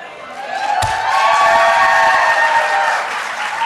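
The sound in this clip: Crowd cheering and applauding at the signing of New York's abortion bill, a loud, dense roar of clapping and shouts that swells and holds without any speech over it.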